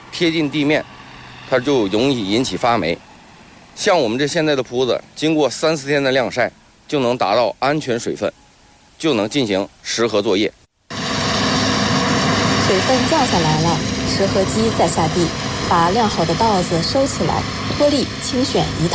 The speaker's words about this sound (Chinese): 田里几台割晒机正开足马力，走的线路笔直笔直。